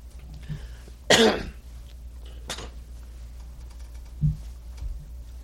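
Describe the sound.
Coughing and throat clearing from someone whose ear infection is affecting the throat: a few harsh, abrupt bursts, the first loudest and the later ones fainter, separated by near silence.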